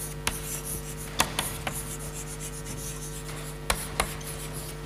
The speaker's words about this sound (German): aber deshalb schreibe ich es auf der Wand